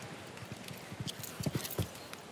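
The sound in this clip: Horse hooves thud on arena ground during an equestrian competition. Many soft, rhythmic beats follow one another at a steady gait, with a few heavier strikes toward the end.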